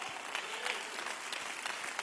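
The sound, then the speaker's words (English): A church audience clapping their hands in praise, a faint but continuous patter of many hands mixed with low crowd murmur. “And if I have a church that believes it, clap your hands and give God praise.”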